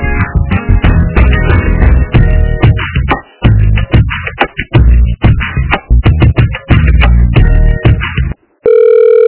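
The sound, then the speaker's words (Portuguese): Telephone line audio during a call transfer: a dense, busy stretch of sound limited to the phone band, ending in a brief steady tone. “Eu vou estar transferindo a ligação para ele e para ele estar lhe auxiliando.”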